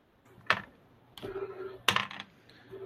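Dice clatter as a ten-sided die is rolled for damage in a Call of Cthulhu tabletop game: three short, faint bursts of hard clicks and rattles with brief pauses between them.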